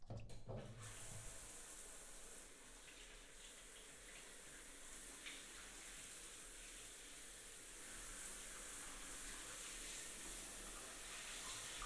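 Continuous running water used to rinse a person's body during bathing, a steady, soft hiss that holds at an even level throughout with a slight swell toward the end and no voices.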